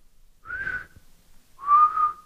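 Whistling by a person practising for a performance. Two sustained whistled notes are separated by a short pause, the second slightly lower and a little louder. The whistling is fairly soft and clear, with nothing else around it.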